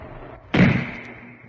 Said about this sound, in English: Oh, the sniper! She's been shot! The sniper!